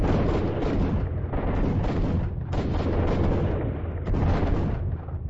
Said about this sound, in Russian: И почти сразу прозвучал далекий взрыв. Сработала первая растяжка, оставленная нами у двери.